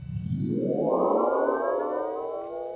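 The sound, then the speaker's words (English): A spaceship powering up in a video game: a synthetic hum that climbs steeply in pitch over the first second, then keeps rising slowly, with bright stacked overtones and no voices. “that was the sound of a ship powering up,”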